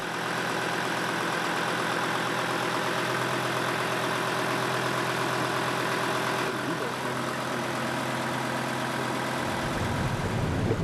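Boat engine running smoothly right after a new gearbox was installed, a continuous even mechanical drone with a steady low throb, its tone shifting slightly in the final seconds.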